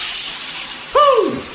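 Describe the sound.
Hot water runs from a Navien tankless water heater as a steady, bright hiss that fills the whole clip, and a short falling tone briefly cuts in near the end.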